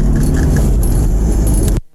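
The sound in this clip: A car driving, captured on a phone voice note: a loud, steady low engine and road rumble with a rattling edge that cuts off abruptly just before the end, with no talking.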